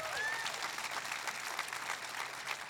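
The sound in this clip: A church audience applauds to welcome remote sites, a steady, dense patter of many hands clapping, faint and brief.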